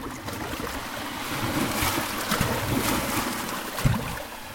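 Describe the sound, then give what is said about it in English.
Steady sloshing and lapping of water as a boat is paddled, a continuous rushing wash with a slightly louder splash near the end. “Paddling.”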